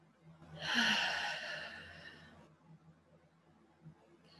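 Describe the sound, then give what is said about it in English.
A deep breath drawn during a guided moment where listeners are asked to breathe together: one long, soft, airy breath lasting about two seconds, fairly quiet, then near silence. “Let's just take a moment and take a deep breath together.”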